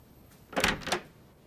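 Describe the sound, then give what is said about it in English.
A bedroom door being opened: two brief, quick knocking-and-scraping sounds from the latch and hinge, fairly quiet, with nothing else around them. “He goes to the door of the bedroom and opens it.”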